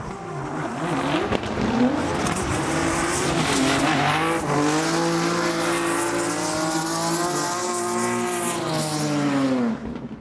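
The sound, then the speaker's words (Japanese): Drift race cars at a professional drift competition at Fuji Speedway roar with loud, sustained engine revving and long squealing tires that continue without a break. “すごい迫力なんですよ 迫力ありますね。 はい、フォーミュラドリフトジャパンの開幕戦が開催されました。”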